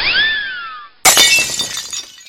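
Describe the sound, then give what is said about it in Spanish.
A ceramic piggy bank shatters in one loud crash, and scattering shards tinkle as the sound decays. A bright chiming tone falling in pitch comes just before the crash. “¡Ay, no! Se rompió mi monedero. Era un lindo cerdito.”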